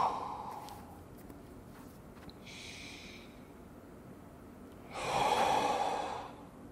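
Deep breathing during a seated yoga forward stretch, head and spine relaxed down while holding the feet: a few soft, airy breaths, the last one longest and loudest.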